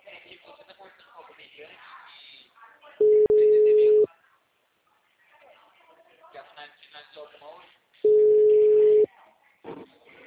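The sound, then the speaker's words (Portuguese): Telephone ringing tone heard while calling someone: two long, steady beeps of equal pitch separated by a pause of several seconds, with people talking in the background around them. “Tô ligando pra ele.”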